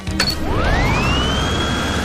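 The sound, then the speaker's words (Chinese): A cold wind machine starting up, opening with brief mechanical clicks before a motor whine sweeps steadily upward in pitch and settles into a sustained high hum over a constant whooshing rush. “这都要感谢我发明了这台伟大的寒风机。启动吧，小猫咪们。”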